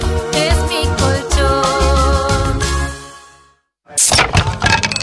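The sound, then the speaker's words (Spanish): The edge of a table breaking with a sudden, sharp, loud crack that bursts out after a moment of silence, following a stretch of rhythmic music. “Rompiste el borde de la mesa”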